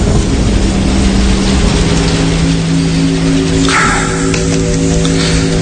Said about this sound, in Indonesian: Duh, hujan kayak gini sih lama.